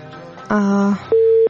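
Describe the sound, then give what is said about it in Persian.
Telephone tones sound as a call is cut off: first a loud, buzzy, lower tone lasting about half a second, then after a short gap a clean, higher steady beep of similar length. “تماس زبیر جان قطع شد متاسفانه.”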